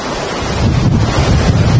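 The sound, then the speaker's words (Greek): Strong wind blows during a wildfire near a settlement on Lesbos. It makes a loud, steady roar with a heavy low rumble that swells slightly toward the end, with no talk over it. “Βλέπετε πόσο δυνατοί είναι οι άνεμοι και μπορείτε να καταλάβετε με τι στοιχεία της φύσης παλεύουν αυτή την ώρα οι πυροσβεστικές δυνάμεις”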